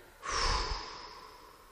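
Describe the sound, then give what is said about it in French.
A single long breath is exhaled during a breathing exercise, a soft airy whoosh that swells quickly and then slowly fades. “Et nous soufflons.”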